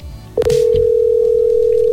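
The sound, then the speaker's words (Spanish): A telephone call tone rings out as a person is called: after a brief click, a steady, unbroken pure tone starts and holds loudly to the end. “Vamos a llamar la persona.”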